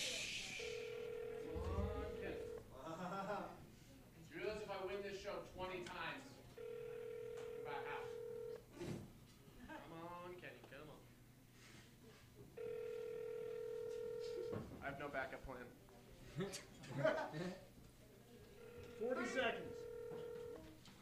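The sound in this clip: Ringback tone of an outgoing telephone call that rings before reaching voicemail: four long, steady, mid-pitched rings spaced several seconds apart, with people talking in the gaps between them.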